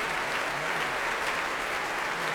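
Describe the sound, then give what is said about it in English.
A Proms audience gives the Oslo Philharmonic a warm reception, its applause a dense, even wall of clapping that holds steady and loud without a break. “cheering, hands in the air as they clap. They're getting a really warm reception here tonight.”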